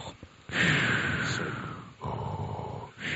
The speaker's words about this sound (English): you're breathing in a mic like that.